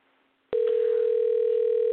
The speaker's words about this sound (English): At least it's dialing.